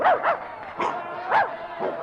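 A dog up for auction barks several times: sharp, yelping barks in uneven bursts with short gaps between them.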